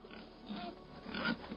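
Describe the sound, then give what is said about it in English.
A boar squeals and grunts in protest in short, rough bursts of moderate loudness, with the strongest cries near the end. “The pair led the boar up the temple steps. Now cleaned and dressed with ribbons, the animal's protests grew weaker and weaker”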